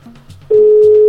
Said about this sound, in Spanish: Ahí está ya timbrando. Vamos a ver si nos recibe la llamada Dana Sofía para felicitarla de parte de su papá.